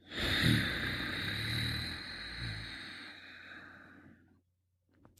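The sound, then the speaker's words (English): Slow breathing out through the nose with the back of the throat contracted, heard as one long, steady, airy rush of breath lasting about four seconds and then fading to silence, with no talk. “inhale through the nose while gently contracting the back of our throat. And exhale slowly through the nose while keeping that throat contracted.”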